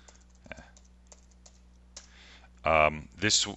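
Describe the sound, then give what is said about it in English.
Key clicks on a computer keyboard as a search for Perfview is typed into a web search bar in Internet Explorer. A few sparse, faint taps are followed by a voice speaking. “The first step is to launch Internet Explorer and then go to a web search bar and type Perfview.”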